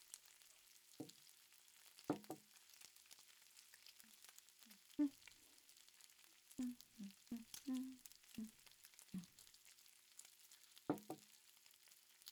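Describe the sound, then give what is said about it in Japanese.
Meat grilling over high heat gives a faint, steady sizzling hiss, broken by scattered short knocks and clicks. “よし、じゃあ強火にまたして肉を焼きますかね。ちなみに焼く音はホワイトノイズって呼ばれていてリラックスできるん”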